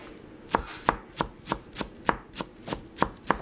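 A chef chops herbs for a chicken marinade in a busy Beirut restaurant kitchen, ten crisp knife strokes on a board at a steady, even rhythm over a low background hum, with no talking.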